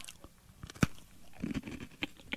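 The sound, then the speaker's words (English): Biting into a cookie for ASMR: one sharp crunch followed by several softer, irregular crunching chews, quiet and crisp, with no talking. “I'm just going to put this cookie in my mouth.”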